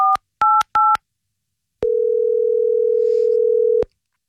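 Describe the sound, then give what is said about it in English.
Three short touch-tone keypad beeps sound as a telephone number is dialed. After a pause comes one long, steady ringing tone of about two seconds, loud and with no talking. “I don't know the last time I dialed a number like this.”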